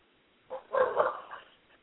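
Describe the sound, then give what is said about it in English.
A dog barks and yips in a short, faint burst of a few uneven barks with no other sounds. “Somebody got a dog.”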